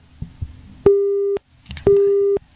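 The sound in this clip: Busy tone on a telephone line after a dropped call: two long, steady beeps of even pitch separated by a short gap, with a few faint low knocks before the first beep.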